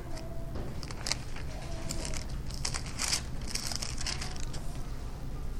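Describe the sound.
Crinkly rustling of thin Bible pages being flipped through to Philippians chapter 2, many soft papery swishes and crackles in quick, uneven succession, fairly faint, over a steady low hum with no one talking.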